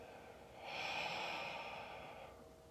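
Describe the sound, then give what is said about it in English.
A single deep breath during a guided relaxation exercise, soft and airy, swelling for about a second and a half and then easing away, with no talk over it. “One more deep breath.”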